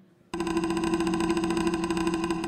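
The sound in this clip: A prize wheel spins with an abrupt start, then a steady, rapid whirring buzz that keeps on evenly until the end.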